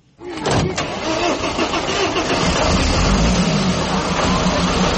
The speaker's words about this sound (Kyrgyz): Таңертең мектепке жөнөгөн бул окуучуларды мына ушул кичи автобус мектепке алып барат.